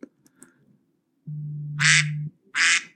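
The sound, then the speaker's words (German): A timer alarm set to a duck sound plays an electronic duck quack: a long, low nasal buzzing honk that ends in a raspy burst, then one more short, loud quack, with no talking. “Nein, das ist eine Ente. Siehst Ach, eine nicht? Ente. Warum hast du den Timer auf Ente gestellt?”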